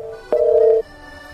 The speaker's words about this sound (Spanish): A ver, parece, que anda ocupado, ¿no? Parece que anda ocupado. Bueno, vamos a ver si podemos recuperar esta llamada.